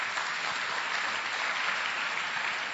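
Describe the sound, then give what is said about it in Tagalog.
A church audience applauds the Lord during a service. Many hands clap in a steady, even patter at moderate loudness, with no voices over it. “Okay, palakpakan natin ang Panginoon.”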